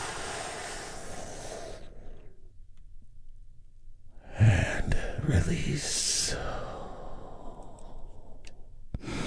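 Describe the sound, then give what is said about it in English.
A big, deep breath drawn in during a guided relaxation exercise, a breathy rush that swells midway and holds steady, with softer breathing noise before it. “we begin by taking a big, deep, healing breath all together.”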